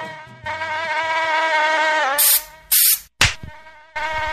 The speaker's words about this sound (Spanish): No me moleste mosquito, no me moleste mosquito, no me moleste mosquito.